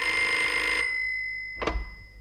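A telephone bell rings loudly for under a second, its metallic ringing tones lingering as they fade, followed by a short clunk as the receiver is picked up.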